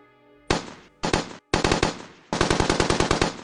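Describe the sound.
Machine gun fire rattles across a trench battlefield in four loud bursts of rapid, evenly spaced shots, with brief gaps between them and a longer final burst.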